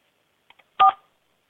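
Telephone keypad tones from pressing keys in a crisis hotline's automated phone menu: two short, faint beeps followed by a longer, louder tone.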